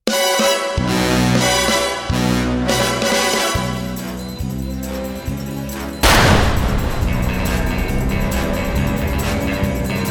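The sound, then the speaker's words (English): James Bond gun barrel sequence at the end of Quantum of Solace: brassy orchestral music with punchy stabbing chords, cut by one loud gunshot burst partway through, after which the music swells on. “After Daniel Craig and Judi Dench get their heart-to-heart moment, the movie ends, and then, out of nowhere, here comes the gun barrel sequence at the end of the film.”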